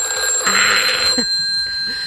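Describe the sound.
Ringing of an old rotary-dial telephone bell, a bright metallic jangle with sustained high tones, loudest in its first second and then trailing off, with talk underneath.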